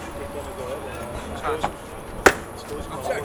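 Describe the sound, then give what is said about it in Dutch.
An axe thrown at a target lands with a single sharp, loud thud, followed by a couple of fainter knocks over a steady murmur of background voices. “Ik kan wel een bijl gooien. Kan er één gooien? Ja.”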